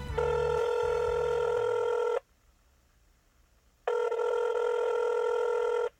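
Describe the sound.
Ringback tone of an outgoing telephone call: two long, steady buzzing rings separated by a silent gap of under two seconds, with a short lower tone at the start.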